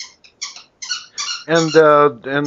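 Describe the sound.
A dog squeaks in a few short, high-pitched bursts, then makes louder, lower, voice-like sounds.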